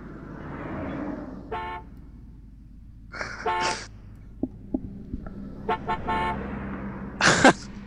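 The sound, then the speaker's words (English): A vehicle horn, referred to as an air horn, sounds in a few short, bright, harmonic honks of varying length, separated by quiet low rumble and occasional small clicks. “can we not have the air horn as the horn? Like, hold on, I'll just honk my horn for you.”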